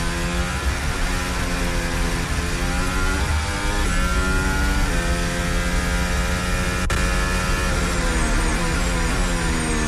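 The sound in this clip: Formula 1 car engine at the Singapore Grand Prix, loud and continuous, its high-pitched whine and harmonics rising and falling several times as the car passes on track, with no talk.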